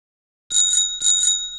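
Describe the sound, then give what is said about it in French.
A small bicycle bell rings twice in quick succession, bright, loud and metallic, each ring lingering briefly, with no voices. “Il s'amuse, rit et avale comme toujours la petite sonnette du vélo.”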